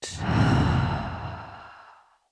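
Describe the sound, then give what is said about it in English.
One deep breath is exhaled during a guided breathing exercise. The breath is a long, airy rush that starts strong and slowly fades over about two seconds, with no talk. “Let's take a deep breath in together. Exhale it out.”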